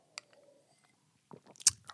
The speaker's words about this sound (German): Und auch Trinkpausen sind auch wichtig. Zum Beispiel trinke ich jetzt mal was.